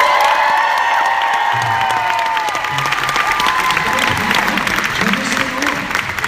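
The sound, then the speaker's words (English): Loud applause and cheering from a panel audience welcoming guests onstage, sustained at a steady level throughout with whoops mixed into the clapping. “All right, put your hands together for Michael Rosenbaum, John Heder!”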